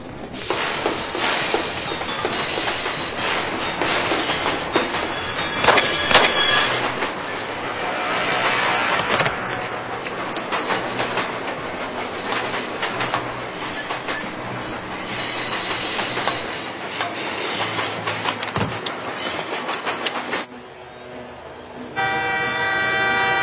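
A train runs on rails with a continuous rumbling rattle, rhythmic clickety-clack and occasional wheel squeal, holding steady for over twenty seconds before growing quieter near the end.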